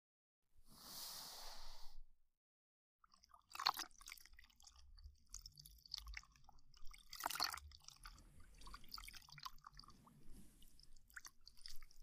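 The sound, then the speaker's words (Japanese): A cloth wiping around the ears, close and intimate: a soft breathy swish, a brief pause, then steady crackling, damp rubbing with a couple of sharper scrapes, moderately quiet with no talking. “まずは、お耳を拭いていきますね。”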